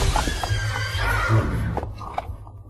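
A horse being reined in whinnies loudly in a few breathy bursts over a rough, low rumble.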